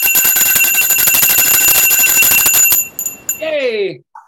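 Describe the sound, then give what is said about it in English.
A small handheld bell rung rapidly and continuously for almost three seconds gives bright, sustained, overlapping tones. The ringing then fades, and a person speaks briefly at the end. “want to ring this now. I meant to bring my mindfulness singing bowl, and I forgot to bring it to Queens, but my mother-in-law has this bell here.”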